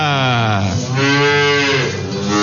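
A dairy cow lowing at milking time, one long, loud, drawn-out moo whose deep pitch wavers as it goes on, heard alone with no talk.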